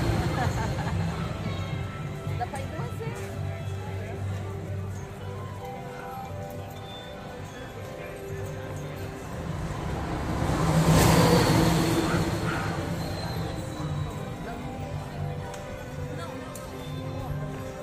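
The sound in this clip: A car driving along with a steady engine hum that swells louder midway and then eases back, as voices talk over it throughout.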